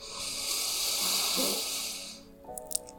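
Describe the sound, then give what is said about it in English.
A long, deep inhale through the nose at the start of a meditation: a steady, breathy rush of air that holds for about two seconds and then cuts off, followed by a quieter, brief tonal sound. “Let's begin this meditation by taking big inhale in through your nose”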